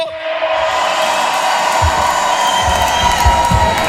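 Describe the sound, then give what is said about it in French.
A festival crowd cheers and whoops for Radio Fuego at the launch of the Viva Fuego Festival, a loud, sustained roar of voices with scattered shouts rising out of it. “Ça, c'est le public de Radio Fuego. S'il vous plaît, encore une fois, faites du bruit pour Radio Fuego.”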